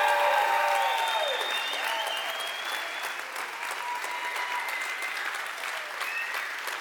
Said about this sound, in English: make some stadium noise in this place and give God some glory.